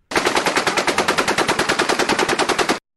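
Automatic gunfire rips out in one long unbroken burst of many rounds at a fast, even rate, each shot loud and sharp, then stops abruptly.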